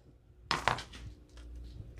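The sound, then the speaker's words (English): A paper guillotine cutter is closed with two sharp, bright clacks about a quarter second apart. A faint, low rattle and settling noise follow. “That's my guillotine. Love that thing. Close it.”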